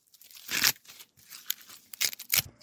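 Fresh corn being husked by hand: a few sharp, crisp tearing and crinkling bursts as the leaves are stripped from the ears, separated by brief quiet gaps.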